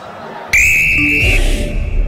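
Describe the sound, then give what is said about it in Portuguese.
A referee's whistle ending the first half of a football match at the Mineirão: a single long, shrill, steady blast lasting about a second over background noise. “Apita pela última vez neste primeiro tempo.”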